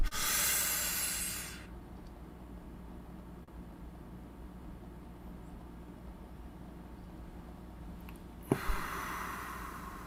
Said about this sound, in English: did you see what I just did? I brought the air in, I held it for 7 seconds, and then I inhaled the air and the energy